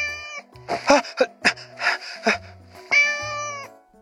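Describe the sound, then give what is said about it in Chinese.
A small black cat meows, with a drawn-out harmonic meow at the start and another near the end, and brief scratchy bursts between them. “视频挨个点开，看见小黑猫在猫爬架上跳上跳下，再一跃飞上置物架”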